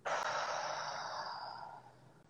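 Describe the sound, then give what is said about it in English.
One long, breathy exhale during a guided deep-breathing exercise starts strong and gradually fades over about two seconds, soft and airy with no other sound. “we'll take a deep breath in and exhale. Inhale. And exhale.”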